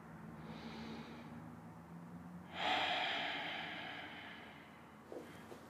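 A forceful breath pushed out through pressed-closed lips during a gentle sunrise yoga class, one soft, breathy rush that swells and fades slowly. A quieter breath comes before it and a short puff follows near the end.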